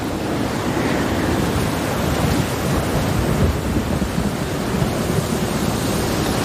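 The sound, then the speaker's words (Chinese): A strong gale sweeps across the land at Ruaha as the dry season ends. It makes a dense, steady, unbroken roar of rushing air at an even loudness, with no distinct gusts. “狂风赶走了鲁阿哈的旱季，”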